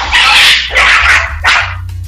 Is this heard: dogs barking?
yes